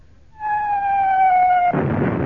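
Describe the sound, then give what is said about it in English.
Incoming shell from a naval fleet firing on towed target ships: a steady whistling tone that sinks slightly in pitch for over a second, then breaks into a broad, rumbling explosion burst. “It's a NATO exercise! You're towing the target ships and the fleet have found them and are firing on you!”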